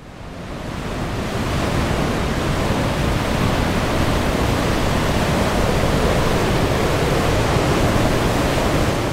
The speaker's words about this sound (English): That's the sound of water pouring over the Lake Menindi dam wall. Millions of litres of the stuff.